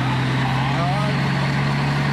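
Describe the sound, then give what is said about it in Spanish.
Dina truck engine fitted in a vehicle runs with a loud, steady low drone that holds throughout, with brief talk over it. “Este tiene un motor de Thornton. Tiene un motor de camión Dina.”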